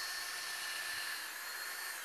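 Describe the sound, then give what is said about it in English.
A power drill whines steadily without a break as it bores aligned holes through stacked, clamped side pieces held under a drill guide, a continuous high hiss with a faint thin tone. “So I'll line them up, clamp everything down, and drill.”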